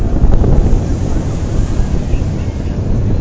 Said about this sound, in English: You can hear the wind. Yep, today's the windiest day.